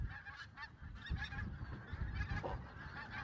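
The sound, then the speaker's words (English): Geese honk continuously as they fly over, a loud clamour of many overlapping nasal calls with no break, while wind rumbles low beneath them. “These geese are just fantastic. They're flying over the whole time. What a noise.”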